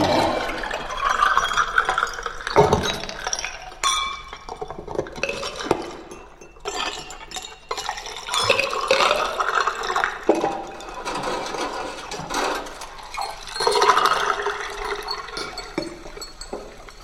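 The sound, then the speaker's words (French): A rapier striking and scraping against a metal bar: several sharp metallic clangs with bright ringing resonance, separated by grinding, rattling scrapes that rise and fall in loudness. “Quatrième son avec la rapière et la barre en métal.”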